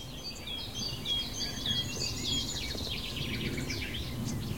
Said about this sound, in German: Und immer wieder so plätschernder Gesang im Hintergrund. Einmal ist es die Nachtigall, die sehr markant ist.